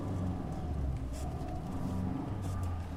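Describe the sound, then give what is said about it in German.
A Lada car driving through the streets of northeast Berlin toward Prenzlauer Berg, giving a steady, low engine rumble with a dense droning hum that holds evenly throughout, with no talking. “Und habe ich gedacht, nehme ich einen Lader, ja, wie damals die Polizei, und fahre da mal hin.”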